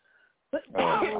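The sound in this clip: A person on a phone call coughs: an abrupt, sharp burst, then a longer, rough, throaty rasp, heard after a moment of near silence.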